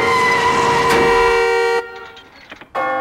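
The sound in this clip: A bus bearing down blares its horn in a long, loud, harsh blast, drops to a brief stretch of softer scattered noises, then blasts the horn again at the end.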